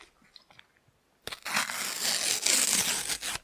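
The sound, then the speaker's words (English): A sticker packet torn open along its side: near quiet at first, then a loud crackling, crinkling rip that runs on for about two seconds in uneven bursts. “Sticking with the side tear. The side tear is where it's at.”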